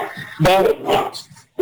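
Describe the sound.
An excited dog barks a few short, sharp times, with people talking around the barks.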